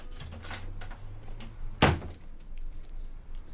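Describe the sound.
A door opening as a visitor comes in, heard as one short, sharp thump midway through, standing out above low background noise and a faint hum.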